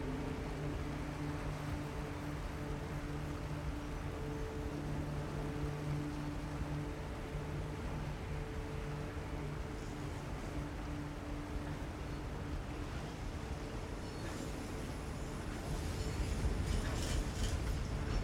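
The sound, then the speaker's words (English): A boat rumbles as a lift slows and lowers it onto a canal: a continuous low, mechanical rumble with steady humming tones grows slightly louder and rougher near the end. “Large shudder. The boat starts to rumble as the lift slows and is gracefully placed on the surface of the canals below.”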